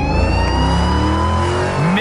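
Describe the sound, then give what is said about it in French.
A car engine revs during a police chase after a stolen car through Los Angeles streets. Its loud, steady roar is rich in harmonics, and its pitch climbs sharply near the end. “Tout commence quand la police locale reçoit un signalement pour une voiture volée. Ni une, ni deux. Les policiers prennent la voiture en chasse.”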